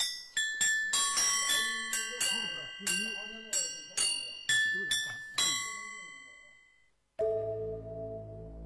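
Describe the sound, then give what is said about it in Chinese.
Yunluo, a Chinese cloud gong chime of small tuned gongs used in village Buddhist ritual music, is struck in a quick, uneven run of many bright, ringing metallic notes at varying pitches. The run then stops and a lower tone follows. “这叫云锣。”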